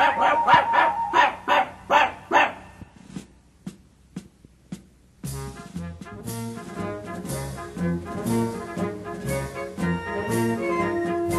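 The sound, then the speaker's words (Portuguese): A small dog yaps in a quick run of high, out-of-tune barks, then falls silent before instrumental music starts up and continues to the end. “Só quem está desafinando é o cãozinho Lulu.”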